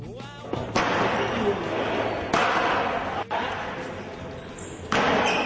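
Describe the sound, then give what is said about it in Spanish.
Tambourine-like rackets strike a tennis ball during a tamburello match played in teams of three, producing a few loud, sharp cracks spaced a second or more apart over continuous background noise. “Escucha, así suena un partido de tamburello.”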